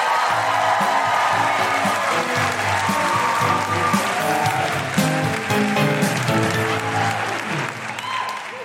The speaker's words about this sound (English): Put your hands together and make incredible Guilty Feminist Adelaide welcoming noises for the wonderful Geraldine